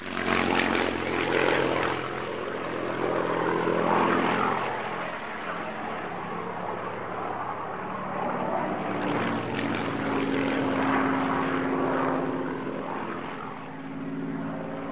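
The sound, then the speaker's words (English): A propeller airplane flies overhead, giving a broad, steady engine drone that lasts throughout, swelling slightly at times and never cutting out. “Annie Hartridge is outside when the plane flies overhead.”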